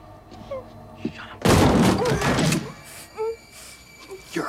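A door is kicked open during a hostage rescue in an action scene: a sudden, heavy crashing thud that rattles on for about a second, between quieter scattered knocks.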